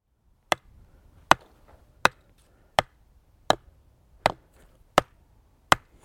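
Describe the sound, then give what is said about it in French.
A wooden stake with a board fixed to it is hammered into the ground: eight sharp, evenly spaced knocks, each a crisp strike separated by near silence. “Ce que vous venez d'entendre là, c'est moi. Je suis en train de planter un piquet en fait.”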